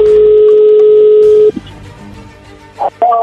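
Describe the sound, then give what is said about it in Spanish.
A telephone being dialed with touch tones: a steady, loud dial tone holds for about a second and a half and then cuts off, followed after a pause by two short electronic tone bursts. “ahí se está marcando”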